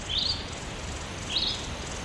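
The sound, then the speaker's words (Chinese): A small bird chirping in the desert gives two brief, high, faint chirps about a second apart over steady background hiss. “小鸟，小鸟， 小点声，别惊扰了它。”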